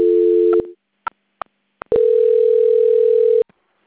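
A telephone line tone plays while a bank call is transferred to the quality department: a steady, mid-pitched tone, then a few short clicks, then a longer stretch of the same steady tone that cuts off abruptly. No one speaks.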